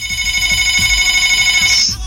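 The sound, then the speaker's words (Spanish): An electronic telephone ringtone sounds for an incoming call: bright, steady high tones with a fast warble that hold for about two seconds and then cut off. “contéstale a ver a esta persona que me estaba llamando”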